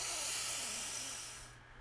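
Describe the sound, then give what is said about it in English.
A slow, deep breath flows out during a relaxation exercise. It is a soft, airy hiss that gradually fades away. “Get that stale air out of your lungs. Breathe in and out. Let your shoulders drop on that out breath. Breathe in”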